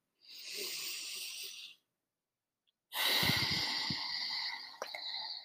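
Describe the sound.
Slow, deep breathing by people breathing together: a long, airy inhale, a silent pause, then a longer and slightly rougher exhale, all fairly soft.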